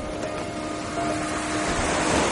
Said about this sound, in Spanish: Luego, Stephanie contempla desde la orilla el mar